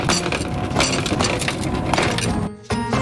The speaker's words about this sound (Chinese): 泥坨子烤好了，再怎么开呢？我们 拿锤子把它敲开，